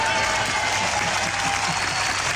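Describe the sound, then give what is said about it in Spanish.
Theatre audience applause at the Mérida Festival, marking the farewell performance of Timon of Athens: a continuous, even roar of many hands clapping together, held at a steady level throughout. “Este aplauso lo hacemos extensivo, por supuesto, a la selección, que parece que ha ganado.”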